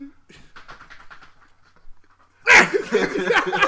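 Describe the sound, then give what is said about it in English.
A service dog makes panting and vocal sounds mixed in with loud voices talking over it, the chatter growing louder toward the end. “Oh, you got a service dog.”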